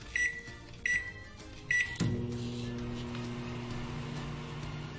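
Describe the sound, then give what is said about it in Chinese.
A microwave oven reheating a boxed meal gives three short, high electronic beeps, then starts running with a steady low hum and whir that continues evenly to the end. “好，等我放入个微波炉度先。”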